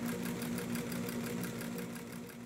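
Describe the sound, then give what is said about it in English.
An old 1950s heavy-duty sewing machine runs in a bootmaker's shop, giving a fast, even mechanical chatter over a steady low hum with no talking. “This is a really old, probably 50s, I think, this machine. But it's a beast, and it'll sew through anything.”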